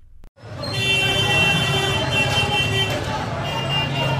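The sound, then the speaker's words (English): Engines and crowd noise from dozens of vehicles and many residents gathered around a petrol station on the outskirts of a refugee camp in the central Gaza Strip: a dense, steady rumble with murmuring voices throughout. “In central Gaza Strip, dozens of vehicles and scores of residents gather around a petrol station on the outskirts of Al Buraid refugee camp.”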